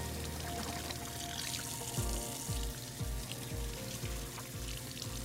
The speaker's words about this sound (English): Oh, first you gotta wash your hands. That's the rule.